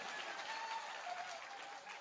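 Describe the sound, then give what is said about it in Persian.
Audience applause: faint, steady clapping from many hands that holds at an even level throughout without breaks. “معلومه دیشب خیلی تو خیابون کف زدی خسته شدی. آخ بیا آبروداری کن. بله علی اکبر اون کف قشنگه رو دست عقبی ها نمیاد بالا.”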